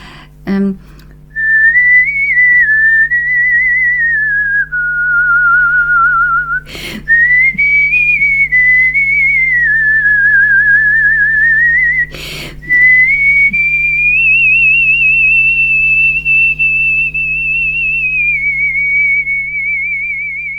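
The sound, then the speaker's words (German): A man softly whistling an opera aria melody into a microphone: long, sustained, gently wavering notes with vibrato, broken by two brief pauses with clicks, over a steady low hum. “Und das habe ich dann auch mit Mikrofon natürlich, weil ich pfeife sehr leise und dann trägt sich das nicht.”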